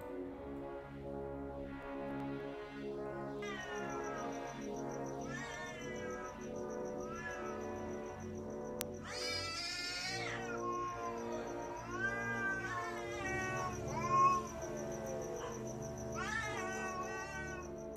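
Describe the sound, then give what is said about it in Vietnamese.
A cat meows mournfully in the distance, giving many drawn-out, wailing cries that bend up and down in pitch, repeated one after another with no talk. “Chỉ có ở xa xa có tiếng mèo kêu nghe đến não nề.”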